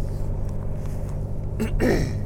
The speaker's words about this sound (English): Fourth gear, 1,800 RPMs. And my big old diesel at 80 kilometers an hour, which is like 50 miles an hour. Take fifth gear.